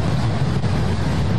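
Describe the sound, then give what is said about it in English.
Rushing roar of storm-surge ocean water pouring into the streets near the boardwalk in Hollywood Beach, Florida, a dense, steady, loud wash of noise with no breaks and no voices. “That's the sound of storm surge ocean water pouring into the streets near the boardwalk in Hollywood Beach, Florida.”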